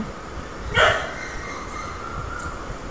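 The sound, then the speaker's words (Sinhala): A dog barks once: a single short, sharp yap rising out of a quiet, hissy background, with nothing further afterward. “බල්ලෙක් බිරුවා නේද? කොහොමද අපි දැනගත්තේ බල්ලෙක්?”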